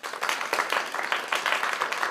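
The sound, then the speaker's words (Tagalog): Applause sound effect of many hands clapping in a dense, steady burst, lasting about two seconds with an even level throughout. “Let's clap. Actually, mag-insert tayo ng ano, ng clapping ano dito.”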